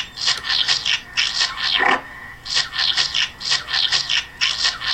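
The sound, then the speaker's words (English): Scrubbing of a golf ball washer in a golf video game: many quick, dry brushing strokes repeating in rhythmic bursts. The hissy back-and-forth scraping is heard alone, without voices. “Okay, so now we're at the screen where the ball washer is, and I'll let you hear the ball washer.”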